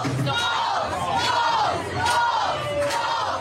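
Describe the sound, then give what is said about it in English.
Loud crowd cheering and whooping greets Democratic vice presidential nominee and Minnesota Governor Tim Walz at the Minnesota State Fair in St. Paul, a steady, dense roar of many voices that holds throughout. “A big welcome for Democratic vice presidential nominee and Minnesota Governor Tim Walz at the Minnesota State Fair in St. Paul.”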